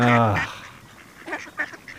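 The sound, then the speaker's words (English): Ducks on a pond: a loud, nasal quack with a dropping pitch opens, followed by a few fainter, shorter calls. “We can just go walk around the pond. But all I can see are ducks.”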